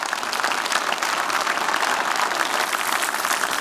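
Audience clapping hands at a church service to welcome a visiting pastor, a thick, continuous roar of applause that stays loud and even throughout.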